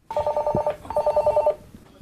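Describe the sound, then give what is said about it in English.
A telephone rings in the office of a family carrot farm in Yorkshire, England: two clear bursts of rapid, warbling electronic trill, each about half a second long, heard alone with no talk. “Hello, Poskett. Answering the phone and greeting visitors, receptionist Aista Lukashuta.”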